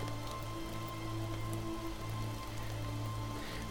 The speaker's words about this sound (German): Da ist nur der Regen.